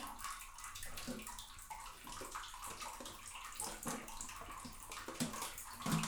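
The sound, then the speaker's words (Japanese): Water splashing and sloshing as a body is washed in a bath, a faint continuous wash of watery noise with small irregular splashes throughout. “じゃあ体洗うよ。”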